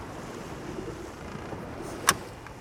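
Small sea waves and a light wind off the Marseille coast, between the port and the Frioul islands, heard from a boat: a soft, steady wash of water and breeze, with one brief knock near the end.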